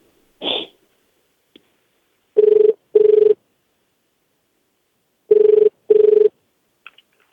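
Telephone ringback tone for a call placed from New York to Japan: a short tone near the start, then four even buzzing rings grouped in two pairs with a pause between them, loud and alone with no talk.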